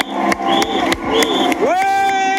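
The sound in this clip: A cycling fan shouting and cheering at a Tour de France stage passing through Cadillac. The loud, ringing yells end in one long sustained call, with other voices faintly around it.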